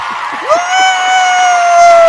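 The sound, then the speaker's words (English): A studio audience cheers at an evening show, one whoop rising and then holding steady over a bright wash of crowd noise for about two seconds. “Yeah, you know what I did? I brought my studio audience for you. Studio audience! Yeah!”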